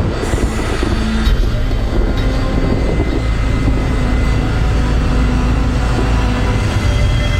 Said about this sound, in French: West 708, lining up and taking off.